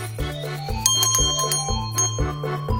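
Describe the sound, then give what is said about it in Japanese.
A hand bell ringing in bright metallic tones, struck in a quick, repeated, steady rhythm with long shimmering overtones. It is fairly loud and heard alone, with no talk. “はい、こちらはハンドベルちゃんでございます。”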